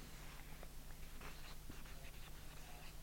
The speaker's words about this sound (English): Let me just draw a diagram here so we get clear as to what planes and what's the transitions that we're talking about.